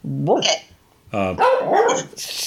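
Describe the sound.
A dog gives a few short, high yapping barks in two bursts, with people talking around it.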